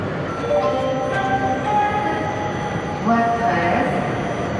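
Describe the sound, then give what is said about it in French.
A high-speed TGV train departing from a station: a steady, loud rumble with sustained whining tones layered over it, holding at a constant level throughout. “le TGV minuit numéro 7015 à destination de l'île Flandre va partir. Prenez garde à la fermeture automatique des portes attention au départ.”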